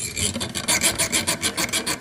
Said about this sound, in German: rückt mit einer kleinen Säge dem Kruzifix zu Leibe. Manchmal ist richtig Kraft vonnöten.